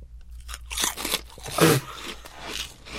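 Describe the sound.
Crunchy chewing of shrimp-flavored snack chips: a run of dry, crackling bites, the loudest in the middle, with no talking.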